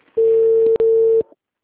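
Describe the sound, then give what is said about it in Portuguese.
A telephone ringback tone sounds while a call is being placed: one long, steady, mid-pitched tone with a brief break near its middle, heard alone and at fairly high volume. “Vou chamar ela agora.”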